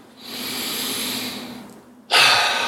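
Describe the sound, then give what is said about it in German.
A person takes a deep breath during a short mindful pause: a long, steady, soft breath, then a louder, forceful breath that starts abruptly and fades slowly. No talking is heard. “einfach mal tief durchatmen”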